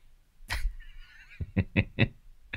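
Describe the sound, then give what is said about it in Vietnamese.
Bird calls: a brief burst, then a drawn-out warbling note, then several short, sharp chirps in quick succession with no voices. “Chưa tắt lại chim à?”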